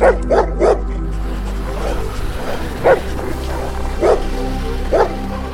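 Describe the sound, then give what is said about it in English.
Sled dogs barking in a sled team: about six sharp barks, three in quick succession, then scattered single barks over a steady background rumble. “So you guys get onto your sled dogs.”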